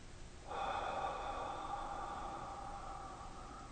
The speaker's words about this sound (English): Let's start by taking a deep breath in one. Hold it.